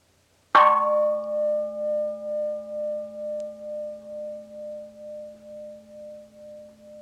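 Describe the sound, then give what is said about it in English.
A meditation gong struck once: a bright attack followed by a long, sustained ringing tone that pulses with a slow, steady waver as it gradually fades. “If you, for example, simply listen to the gong,”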